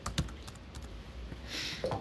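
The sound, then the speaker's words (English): Typing on a computer keyboard: faint, scattered key clicks over a low, steady background hum, with no voices. “So I typed and then he replied.”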